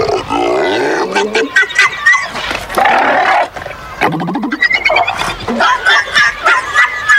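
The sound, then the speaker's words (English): Seals bark in loud, raspy, honking bursts, many rough calls following one another in an irregular, crowded run with short gaps between them. “Guess what these seals are saying instead?”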